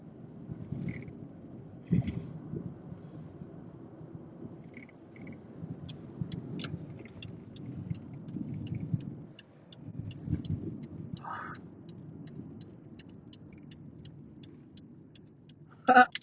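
Car interior while driving, with a steady low rumble throughout. A regular series of light ticks runs through the middle stretch, and a brief sharp clatter sounds at the very end.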